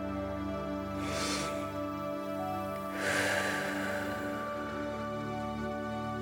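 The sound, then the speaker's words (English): Breathing during a guided relaxation exercise, a big breath in through the nose and out through the mouth: two soft, airy bursts about two seconds apart over steady sustained background music. “Now, let's take a big breath in through your nose and out through your mouth.”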